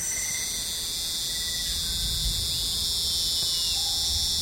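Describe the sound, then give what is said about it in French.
A Lerneca cricket sings its courtship song to a female, a continuous high-pitched trilling buzz that holds at an even loudness without pauses, over a faint low rumble. “En fonction de la puissance et de la qualité du chant, la femelle va évaluer les caractéristiques de cet éventuel reproducteur.”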